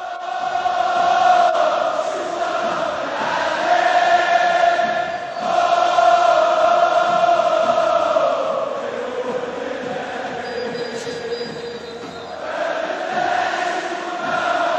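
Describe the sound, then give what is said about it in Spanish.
Raja Casablanca football fans chant in the stands of the Estadio Mohamed V in Casablanca, a loud, sustained mass of voices whose sung phrases surge and ease in waves. “Los cánticos que salen de sus bancadas se convirtieron en el altavoz de la calle contra sus dirigentes políticos.”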